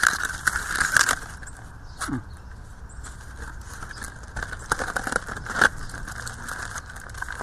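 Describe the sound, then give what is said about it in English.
Aluminum foil crinkles and crackles as it is unwrapped from a garlic-marinated brisket. Irregular rustling bursts come louder at the start and again near the end, with quieter crinkling between. “So now, we're about to do the brisket. I will unwrap it. It's in this aluminum foil here.”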